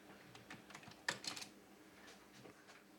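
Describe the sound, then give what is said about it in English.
Typing on a computer keyboard, faint and quiet: a loose run of light keystrokes with one short, slightly louder cluster of clicks partway through. “Let me type in original.”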